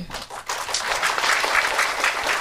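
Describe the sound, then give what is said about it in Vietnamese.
Audience applause at a Buddhist meditation teaching: many hands clapping in a dense, steady patter that dips briefly at the start, then holds at an even level. “Sao mà ham vỗ tay quá vậy?”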